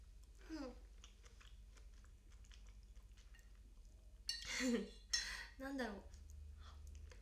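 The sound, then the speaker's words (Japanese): Cutlery clinks against a plate while someone eats carbonara with small bacon bits. Faint, scattered taps and scrapes give way to a few louder clattering bursts near the end. “なんか素で食べてるだけの音声ですが、この音声はあれだね、カルボナーラを食べるときに聞く音声だ。”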